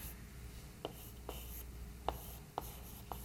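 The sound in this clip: Faint scratching of a hand drawing a physics diagram during a lecture: several short, separate strokes spaced irregularly over a low background hiss.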